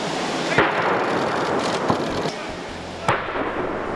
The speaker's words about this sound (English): Earlier, the president received a gun salute.